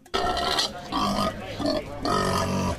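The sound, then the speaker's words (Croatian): Pigs and piglets at a livestock market squeal loudly in a few harsh, drawn-out bursts, one after another, with rough grunting tones between the squeals. “mi smo za vas ipak danas jurili svinje i prasiće po pijaci.”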